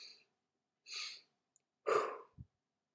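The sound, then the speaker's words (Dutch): A breathing exercise: a deep breath in, an extra breath in through the nose, then a full breath out. Short airy breaths are followed by a louder, longer rush of breath and a soft low thump, with no talk. “Maar ik adem dus helemaal in, dan door mijn neus nog iets extra en dan helemaal uit.”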